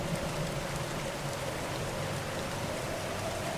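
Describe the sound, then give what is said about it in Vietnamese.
Heavy, torrential rain pours down in a dense, even hiss that holds steady at a constant level for the whole stretch. It has no distinct drops and no thunder. “trời bắt đầu đổ cơn mưa như trút nước xuống làn.”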